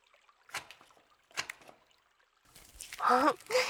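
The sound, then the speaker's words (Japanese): Water splashes and trickles while someone's back is washed, in a few soft bursts, with a louder stretch near the end where a voice briefly comes through. “じゃあここに座って。まずは背中から洗うね。”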